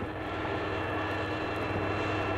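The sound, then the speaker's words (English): Aircraft engine running during a pre-flight run-up check, a loud, steady drone with a low humming rumble underneath that holds constant throughout, with no voices. “Now we check for oil pressure. We check RPM coming up. Let the RPM stabilize.”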